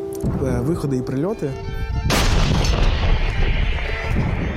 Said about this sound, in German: Auf beiden Seiten wird geschossen.